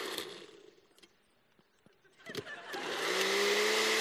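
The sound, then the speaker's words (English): A blender starts up while making a healthy smoothie with celery and peanut butter. A few light clicks come first, then the motor whirs up into a loud, steady high whine. “I'm gonna blend that up. Got a little health food.”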